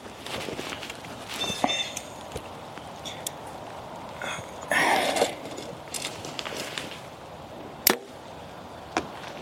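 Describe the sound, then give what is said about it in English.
A bowstring whips against a jacket as an arrow is shot, a single sharp, loud slap standing out from faint rustling and scattered light knocks outdoors. “Must have whipped my jacket a little bit there or something. It's a weird sound.”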